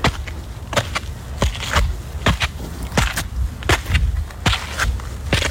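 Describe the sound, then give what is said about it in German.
Footsteps climbing many stairs up a stepped hill: a steady stream of gritty, scuffing footfalls in an uneven rhythm, with no voices. “Du gehst einen mit Treppen bestückten Berg rauf”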